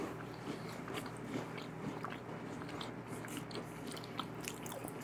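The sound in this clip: Crisp biting and chewing of a buttery cookie with an orange filling: many small, irregular crunches over a low, steady background, quiet and without talk.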